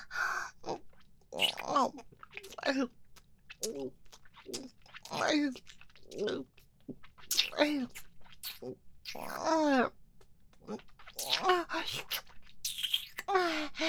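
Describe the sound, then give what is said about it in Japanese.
Wet licking and mouth sounds come up close, with many irregular smacks, slurps and soft clicks separated by short pauses. “少しなめなめしてから始めるね。”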